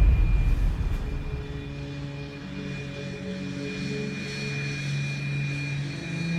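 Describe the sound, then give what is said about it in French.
Airplane engine droning at an airfield, a steady loud rumble with a sustained tonal hum that stays even throughout, slightly heavier at the start, with no voices. “Là-bas, un avion les attend pour les ramener à Moscou.”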